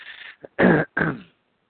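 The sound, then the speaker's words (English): A person clears their throat and coughs: a short rasp and a brief catch, then two loud, harsh bursts, with silence afterward. “excuse me, let me cough here.”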